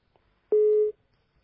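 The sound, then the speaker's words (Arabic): A telephone line tone sounds as a call connects: one steady, low electronic beep lasting under half a second, alone against near silence. “معنا اتصال.”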